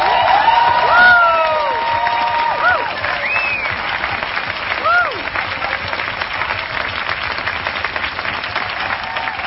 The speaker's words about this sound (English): Greta Thunberg speaking on Saturday in Stockholm, Sweden, in front of 1,000 people. And what we hear here is, you know, they kept clapping, clapping, clapping for minutes.